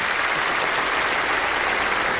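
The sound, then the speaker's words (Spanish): Steady applause from an audience cheering a visa bulletin announcement, a dense, even patter of many hands clapping alone at moderate loudness and holding level throughout without a break. “8 meses de avance. Otro aplauso.”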